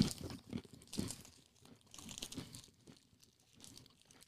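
Crisp crunching as teeth bite into a whole square treat that smells like a sugar cookie, a run of sharp crackly bites that are loudest early, then softer crunching and chewing with no talk.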